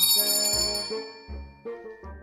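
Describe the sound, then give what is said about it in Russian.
A bell rings during a drama scene. Its bright, high ring fades over the first second, then a few lower sustained tones follow in a steady sequence, with no voices. “Звонит.”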